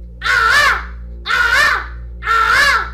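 Harsh cawing from a crow, three loud, evenly spaced caws of similar length with short gaps between, heard alone.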